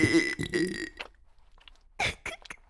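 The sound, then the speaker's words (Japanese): A sudden, loud burp with a rough, low, voiced rattle lasting about a second, followed by quiet and a few short, softer sounds. “お主は本当に不意打ちゲップに弱いの。”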